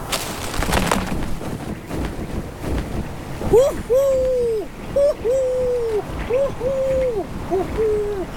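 A male snowy owl near its nest gives a run of hoots, short arched calls, each often led by a brief rising note, repeated several times over steady wind noise.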